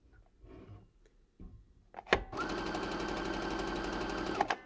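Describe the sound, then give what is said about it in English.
A sewing machine starts up and begins stitching at once, a steady, fast whirring hum with dense mechanical chatter that holds level for a couple of seconds, after a few faint handling clicks. “next, I'm going to start sewing on the Sophia. It immediately began sewing. And I'm just going to put the microphone toward it a little bit just in case we can't hear it.”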